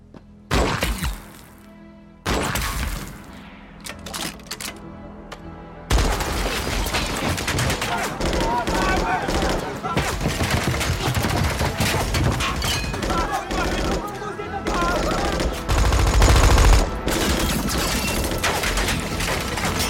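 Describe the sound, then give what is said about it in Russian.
Gunfire opens from camp watchtowers: a few separate bursts at first, then a dense, unbroken rattling fusillade that runs loud to the end, with voices mixed into the din. “В командира стреляют. Он ранен. Тогда с вышек открыли огонь.”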